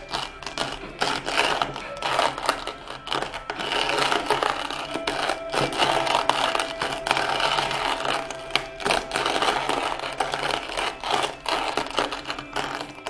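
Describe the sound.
Continuous gritty rasping of a manual coffee burr grinder being cranked by hand by a child, a dense mechanical grind with a fast rhythmic pulse that carries on steadily throughout.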